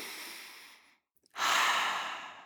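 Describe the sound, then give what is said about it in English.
A deep breath drawn in, a brief silent pause, then a longer, louder breath out, soft and airy with no voice. “So let's just take a deep breath in and out together.”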